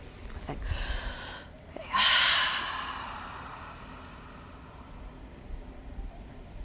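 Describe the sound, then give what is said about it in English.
A deep breath drawn in and let out, with two breathy rushes of air. The second is louder and longer and fades into a soft hiss. “Okay, I need to take a breath”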